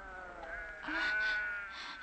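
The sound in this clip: Sheep bleat at a well as a flock gathers to drink. Several wavering, harmonic cries overlap at moderate volume and swell near the middle.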